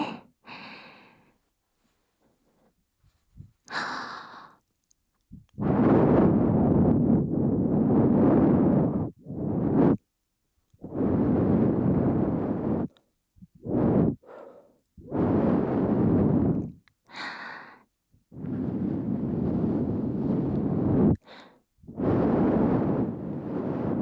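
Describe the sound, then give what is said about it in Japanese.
Soft breathy blowing as the finishing touch of an ear-cleaning session: several long, airy blows separated by short silences, with a couple of fainter breaths at the start and no talking. “最後に、ふうふうしますね。”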